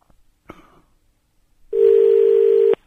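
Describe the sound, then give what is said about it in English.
A telephone being dialled: a single sharp click, then a pause and one steady tone lasting about a second. “Oh, and I've dialed Basil. I didn't want to do that. Oh, goodness gracious me. Dial that one.”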